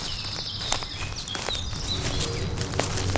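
Footsteps of a group of children and an adult setting off on a walk to discover trees, with faint, steady steps under chirping birds and constant outdoor background noise.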